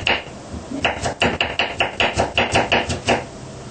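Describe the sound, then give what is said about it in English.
An orange and strawberries are chopped finely, with a quick, steady run of many sharp chops in an even rhythm. “And the orange, yeah, and the strawberry, chop fine.”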